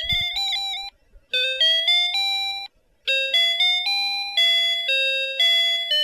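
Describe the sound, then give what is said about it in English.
The built-in tune of a Casio Melody calculator: a bright, pure electronic beeping melody of many short stepped notes, played loud in three phrases split by two brief pauses. “Now, this is my Melody calculator. I love this. This was by Casio. And this one sounds a little bit like this. It's got this tune already in there.”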